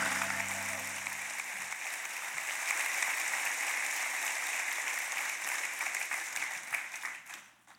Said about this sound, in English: Put your hands together, Summit at all campuses, and welcome Tyler Staton.